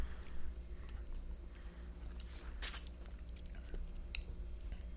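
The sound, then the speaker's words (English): Biting into and chewing a lemon: soft, faint mouth and chewing noises with one brief, sharp juicy bite standing out partway through. “Now bite into the lemon again.”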